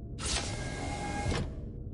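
Elevator doors moving, a single smooth motorized whir with a steady tonal hum that starts and stops abruptly, lasting just over a second above a low background.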